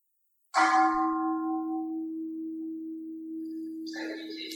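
A meditation bell is struck once to mark time in a session. It rings with a bright attack and then a long, steady low hum that sustains for several seconds, with other faint sounds entering near the end.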